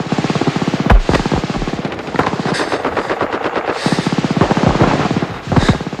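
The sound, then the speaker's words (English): Heavy automatic gunfire from a war film battle scene as soldiers advance on a German bunker: loud, rapid machine-gun bursts crack on without pause for the whole stretch, with many shots packed into dense rattling volleys. “Upham watches their running forms grow hazy in the gunfire smoke. He takes the scope off Jackson's sniper rifle. Through the crosshairs, he watches Ryben and Miller. Bullets rake the dirt all around them.”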